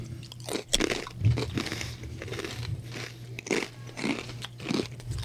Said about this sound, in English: These taste like the same noodles. Yeah, they taste like coated noodles. Coated dry noodles, like seasoned dry noodles.